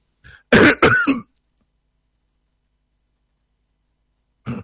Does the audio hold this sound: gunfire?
no